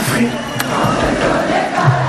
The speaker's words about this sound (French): Un grand karaoké collectif spontané quand Mathieu Chédid dirige les 10 000 spectateurs.